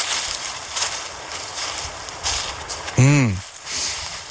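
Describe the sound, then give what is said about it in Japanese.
Footsteps while walking outdoors in the dark at night: soft, faint crunching steps at a fairly steady pace. A short voiced sound breaks in near the end. “こうやって歩いて、ちょっとたまに止まったりするじゃないですか。”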